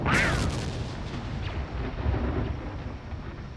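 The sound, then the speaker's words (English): A missile strikes its target in a space-battle scene, a loud booming explosion with a sharp burst at the start, then a heavy rumble that rolls on for several seconds. “Missiles on target. Direct hit!”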